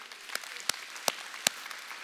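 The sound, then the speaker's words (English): Faint audience applause for a couple celebrating 25 years of marriage, a soft steady patter of clapping with four sharper claps standing out at a fairly even pace. “And I know that applause is for her putting up with me.”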